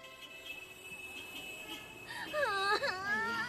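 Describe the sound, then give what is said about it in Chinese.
A child cries in rising and falling wails that begin about halfway through and grow louder, with a quieter stretch before the sobbing starts. “行了行了，别哭了。”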